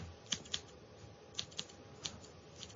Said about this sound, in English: The sound you get when you're getting your hair cut, and you're there and you're happy and you're focused